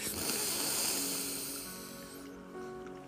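A deep breath drawn in during a guided breathing exercise, a soft airy rush that is fullest at the start and gradually eases off, with faint steady tones sustained beneath it.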